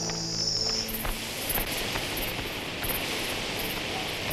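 Insects chirping at night: a dense, high-pitched shimmer of repeated short chirp pulses over a constant broad hiss, steady and unbroken throughout with no voices.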